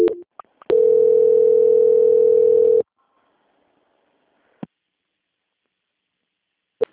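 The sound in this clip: A telephone line tone sounds during a call transfer: a single loud, steady mid-pitched tone lasting about two seconds, then near silence broken by a few brief sharp clicks.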